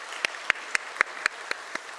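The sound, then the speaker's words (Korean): Unison clapping from a church audience applauding to glorify God: seven sharp, evenly spaced claps in a brisk, steady rhythm. “하나님께 영광의 박수를 올려드리겠습니다.”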